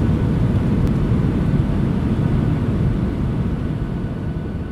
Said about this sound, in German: jetzt werden wir landen. Es geht los.